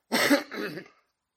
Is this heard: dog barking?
no

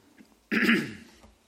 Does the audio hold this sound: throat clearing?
yes

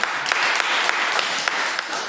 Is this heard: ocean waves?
no

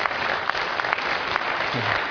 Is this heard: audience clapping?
yes

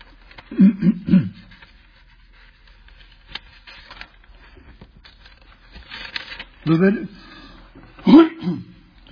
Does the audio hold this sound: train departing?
no

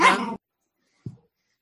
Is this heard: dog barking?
yes

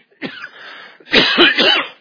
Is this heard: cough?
yes

